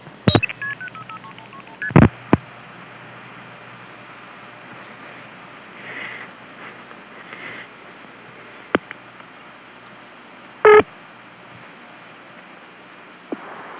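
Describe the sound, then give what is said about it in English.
Touch-tone dialing of a non-working telephone number, a few short DTMF beeps spaced irregularly with long quiet gaps over a faint steady line hiss, and no talk. “I'm dialing the non-working number, and Ben will break into it.”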